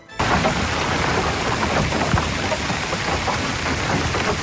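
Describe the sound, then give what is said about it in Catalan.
Hail pelting down during a hailstorm in Olot, in the Girona Pyrenees, a loud, dense and unbroken drumming of stones striking surfaces that holds steady throughout with no voices. “Aquest és el so de la pedregada que va caure a Olot.”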